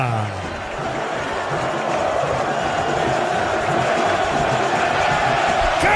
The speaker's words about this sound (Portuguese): Sobe som da Vila Belmiro, é festa do torcedor santista.